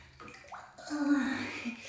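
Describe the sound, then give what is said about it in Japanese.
Someone gets into hot bath water, with a soft swish and slosh of water building and then settling, fairly faint throughout. “もうちょっと取り返しつかないからお湯の中入るぜ。”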